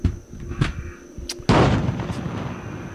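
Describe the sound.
Gunshots fired near a shopping mall ring out as a few sharp, loud bangs, the biggest at about midway, which is followed by a sustained rough wash of noise.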